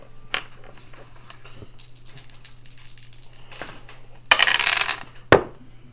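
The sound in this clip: Dice rattle across a table during a tabletop role-playing game, a short, bright clatter ending in one sharp knock, with a few faint scattered clicks earlier.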